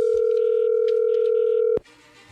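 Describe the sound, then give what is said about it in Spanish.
Ringback tone of a telephone call being dialed: one loud, steady tone that cuts off abruptly, followed by faint line hiss. “ahí se está marcando”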